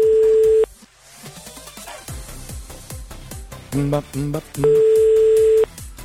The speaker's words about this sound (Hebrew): זה לוקח כל כך הרבה זמן עד שהם עונים לטלפון, זה משגע.